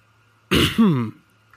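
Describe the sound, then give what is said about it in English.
A person clears their throat once, a short, loud, rasping burst with a voiced, wavering end, set against near silence. “My oh my, my throat needed clearing.”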